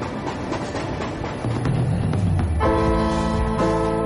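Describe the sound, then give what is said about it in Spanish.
A train speeds along with a steady, heavy rumble and rattle, then a loud, sustained horn sounds in the second half, briefly breaking off before it resumes. “mientras el tren sigue avanzando a toda velocidad”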